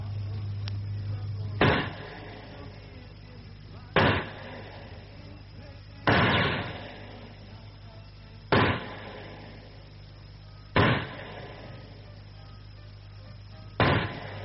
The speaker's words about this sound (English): Two bulls, three near misses, third shot a complete miss. First-class shooting, Hogben.